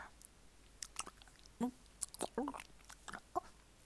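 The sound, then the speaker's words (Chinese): Someone eats ice cream, making faint, irregular wet chewing and biting sounds with small crunchy clicks spread through the quiet clip. “我在吃雪糕呢”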